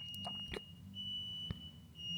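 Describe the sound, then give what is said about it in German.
Faint, high-pitched steady tone from a beeping smoke detector, with a few soft knocks and low background rumble. “Mein Rauchmelder piept.”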